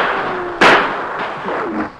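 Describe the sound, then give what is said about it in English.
Gunfire in a shootout: one loud, sharp shot bursts out over a dull rumbling background, then decays. “for a few moments they continued to fire at the troopers”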